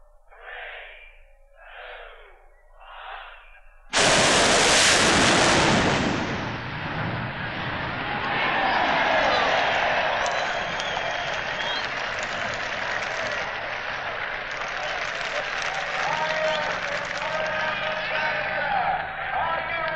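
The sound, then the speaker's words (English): A rocket-powered funny car makes a record-setting drag strip run. After a few short faint bursts, a sudden, loud roar erupts and holds steady as a rushing, crackling blast for over fifteen seconds. “The final sound on this record must come from Sammy Miller and his Rocket. We will pre-warn you that this is the sound of history in the making.”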